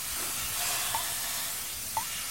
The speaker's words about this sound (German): Was da zischt? Dampf. Dampf aus den Rohren der städtischen Sauna.